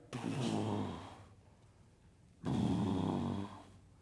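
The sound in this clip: A voice imitates a lion's low exhaling grumble: two rough, rumbling breaths, each lasting about a second, separated by a quiet pause, deep and moderately loud.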